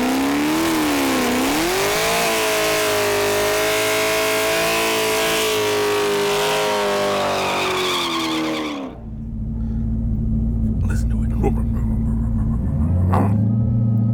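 A modified Camaro, the Exorcist build, roars under hard revving and acceleration, with a loud, sustained harmonic engine whine that climbs in pitch in waves for about nine seconds, then drops abruptly to a deep rumble that begins rising again near the end.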